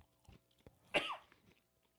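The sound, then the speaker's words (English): A person coughs while eating a cookie: one short, sharp cough burst in the middle, with quiet moments on either side. “Cough it out. Cough it out”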